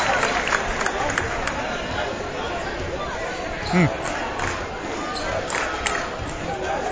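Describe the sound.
Basketball dribbled on a court during a high school game between English High and Classical in the third quarter: repeated bouncing thuds under steady crowd noise and babble.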